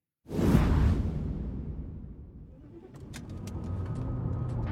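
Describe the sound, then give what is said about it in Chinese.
A car driving across city ruins: a loud whooshing rush of the vehicle at first, easing into a lower steady engine rumble with scattered light clicks and rattles over it, and no voices. “汤默和傅文铎正驾驶车子，艰难地跨越无数的城市废墟，抵达河南省。”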